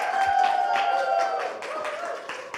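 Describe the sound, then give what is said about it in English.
A church audience applauding to welcome a guest to the stage: dense, steady hand clapping from many people that eases slightly in loudness toward the end. “And so church, please put your hands together and help me to welcome Aaron.”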